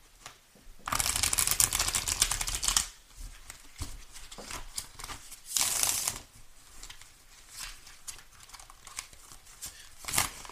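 Tarot cards being shuffled, opening with a long riffling burst of about two seconds, then softer handling rustles and a few shorter crisp shuffles, with no voices.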